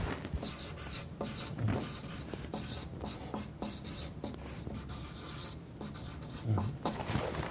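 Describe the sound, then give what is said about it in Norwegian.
Pen writing on paper during a counselling conversation, a steady run of soft, dry scratching strokes with a few sharper marks, heard alone without talk. “Skriv gjerne det opp.”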